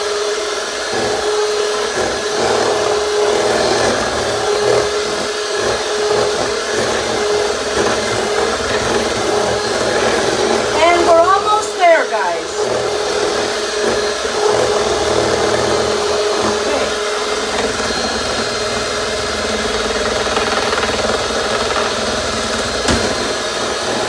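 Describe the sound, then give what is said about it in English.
Electric mixer whipping cream after being switched to a higher speed: a steady, even motor whir with a dense hum that holds level throughout, with no talking. “I'm just gonna speed up my mixer a bit.”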